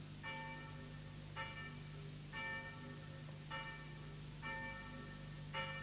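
A church bell tolls in six slow, evenly spaced strikes. Each is a bright ringing tone whose long decay overlaps the next. The bell sounds faint over a steady low hum.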